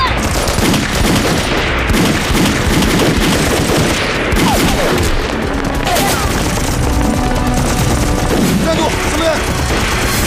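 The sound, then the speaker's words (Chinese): Gunfire in a chaotic firefight, dense rapid bursts of many shots cracking continuously with booms mixed in and voices heard among the shooting. “开枪了！ 别开枪！ 别开枪！”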